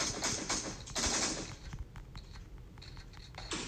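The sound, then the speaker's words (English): Gunfire in the battle royale video game PUBG, several quick bursts of shots cracking out in an uneven rhythm, fairly faint overall. “They shoot him.”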